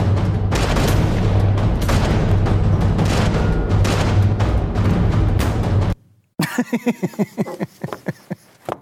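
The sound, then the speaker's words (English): Loud booming, crashing movie action audio from a scene where a man is struck on the back of the head with a gun: a dense, continuous roar for about six seconds, a brief gap of silence, then a run of sharp, rapid impacts. “let me just give you a taste of what it looks like when a guy gets hit in the back of the head with a gun. If this acting doesn't win you over, I don't know what will.”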